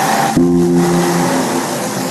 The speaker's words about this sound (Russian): проезжает поливальная машина